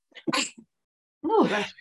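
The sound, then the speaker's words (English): Two sneezes from a person who habitually sneezes more than once. The first is a short, sharp burst, followed after a brief silence by a second, longer and fuller one, with no talking. “I'm one of those people that can never just sneeze once. So I apologize prior.”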